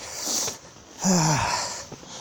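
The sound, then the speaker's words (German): Heavy, wheezy panting from someone climbing a steep stair outdoors. A few labored breaths come in uneven bursts, with one louder, strained, voiced breath in the middle and a faint short one near the end. “ich keuche gerade eine steile Treppe hoch”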